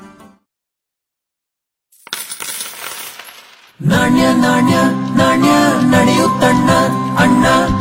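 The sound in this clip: Coins drop in a bright, metallic jingling clatter after a brief silence, then a louder, steady tonal sound takes over and runs to the end.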